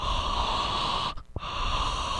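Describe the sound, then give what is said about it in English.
Gentle, steady breathing blown close over pipe tobacco gives a soft continuous hiss that breaks briefly near the middle, with one short puff in the gap, then resumes alone. “I would just put it real, real close to my mouth and gently kind of breathe over the tobacco”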